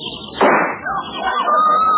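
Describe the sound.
A gunshot sound effect cracks out in a radio comedy sketch, one sharp, loud bang followed by a decaying tail.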